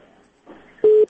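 A telephone busy signal on a dropped phone-in call: one steady, low-pitched tone lasting about a fifth of a second, loud and clean, after a stretch of faint line noise.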